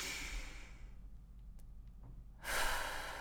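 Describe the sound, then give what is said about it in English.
A long, deep breath, a soft airy rush of air that fades almost to silence, then swells again more loudly near the end, with no voices. “I'm going to invite you just to take a really big, deep breath into that.”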